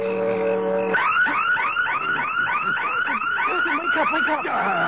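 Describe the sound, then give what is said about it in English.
Burglar alarm going off: a steady electronic tone for about a second, then loud, rapid rising warble sweeps repeating continuously without pause. “It's the burglar alarm.”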